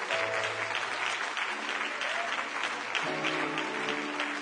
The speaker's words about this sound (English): Well, let's clap our hands unto the Lord, everybody.